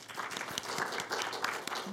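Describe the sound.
An audience applauds to welcome two speakers to a discussion: dense, steady clapping at an even level throughout.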